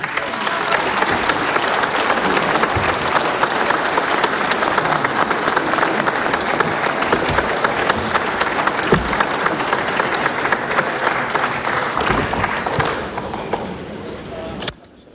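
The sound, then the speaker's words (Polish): Sustained applause fills the Polish parliament, welcoming a new session chair on her debut, a dense, steady clapping that holds for about fourteen seconds before stopping abruptly. “Ponieważ to jej debiut, dodajmy jej otuchy brawami.”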